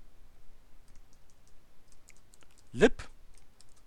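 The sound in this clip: Faint typing on a computer keyboard as a macro name is entered: a run of soft, evenly spaced key clicks with one louder clatter among them.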